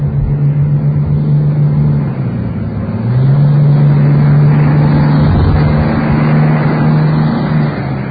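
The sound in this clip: A bus passes by with a loud, steady low engine drone that dips briefly partway through, then settles at a slightly higher pitch and holds until the end.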